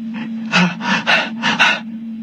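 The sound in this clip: A sick man moans and groans: a string of short, breathy, strained exhalations in quick succession over a steady low hum.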